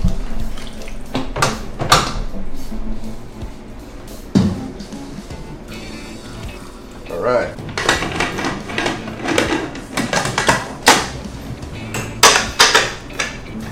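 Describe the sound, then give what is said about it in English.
Pots clatter as browned oxtail goes into a pressure cooker, with many sharp metallic knocks and scrapes at uneven intervals, some louder than others, and no talk. “So this is perfect, ready to cook. So we now put it in the pressure cooker.”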